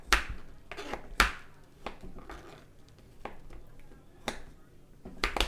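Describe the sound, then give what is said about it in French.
A knife cuts chocolate into thin shavings, making a long series of crisp, irregular clicks and scraping cuts at an uneven rhythm. The level stays moderate throughout, with a soft background rustle. “on coupe des lamelles de, chocolat, donc c'est assez long.”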